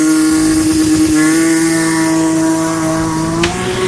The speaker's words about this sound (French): Départ pour cette Porsche GT3 qui vient de partir à bord avec à bord l'équipage 201.